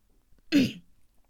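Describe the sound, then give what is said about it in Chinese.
A single forceful cough from a man with a strikingly hoarse throat, performed as one short, harsh burst that stands alone in near silence. “他吃惊的发现自己的嗓子居然如此的嘶哑，他使劲的咳了一下”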